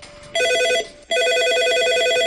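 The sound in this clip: A telephone rings for an incoming call. Two bursts of loud, trilling electronic ringing are separated by a brief pause, and the second burst runs longer.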